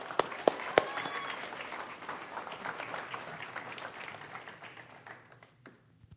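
An audience applauds to welcome guests: a few sharp, separate claps open into dense, steady clapping that thins and fades toward the end.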